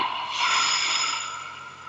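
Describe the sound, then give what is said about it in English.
A person takes a deep breath during a guided breathing exercise, a single long, airy rush of air that swells, then slowly tapers off, heard alone without talk. “Be open to receive. Take another breath.”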